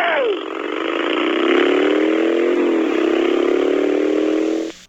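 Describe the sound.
A motorcycle engine played back from a tape: a steady, loud droning whine with strong harmonics, its pitch shifting slightly as it holds, then cutting off abruptly at the end.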